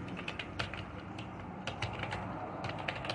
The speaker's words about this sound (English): Let me just type this in.